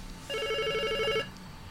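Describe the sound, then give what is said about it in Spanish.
A telephone rings for a call to a radio news show: a single electronic warbling ring, bright and trilling, lasting about a second before cutting off. “Hoy hay llamada telefónica.”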